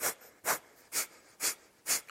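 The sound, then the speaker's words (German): Five short nasal exhalations, blown out sharply through the left nostril while the other is held shut. The puffs are breathy and evenly spaced, with no talking in between. “Du kannst so die Nasenlöcher kurz so schließen und ein paar Mal durch das linke Nasenloch ausatmen.”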